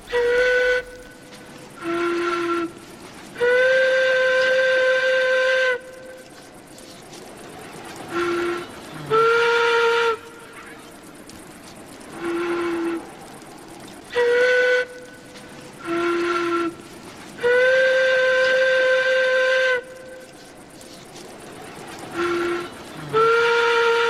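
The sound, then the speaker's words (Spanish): A prehistoric bone flute from a cave in southern Germany plays breathy, whistle-like sustained notes. The notes alternate between a higher and a lower pitch in a repeating phrase, with short pauses between them. “Y el hallazgo se produjo en una cueva al sur de Alemania, en donde también se hallaron otras evidencias de una temprana ocupación de Europa de parte de los Homo sapiens. Vamos a escuchar cómo suena esta flauta de hueso.”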